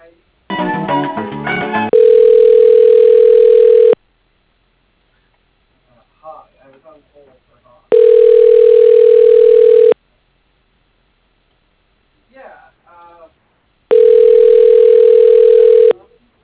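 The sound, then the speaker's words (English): Telephone ringback tone plays while a call is being transferred: three long, steady, mid-pitched tones of about two seconds each, evenly spaced by quiet gaps with faint brief sounds, following a short burst of other sound at the start. “Let me transfer you.”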